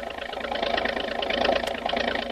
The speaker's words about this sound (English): starts up with a roar, and the speedy motorboat hurls through the water into the midst of the war canoes.